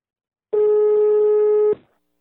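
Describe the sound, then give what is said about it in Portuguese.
A telephone tone sounds while a call waits to connect: one steady electronic beep of about a second, clear and fairly loud, then silence. “Eu agora vou ligar. Vamos ver se pega.”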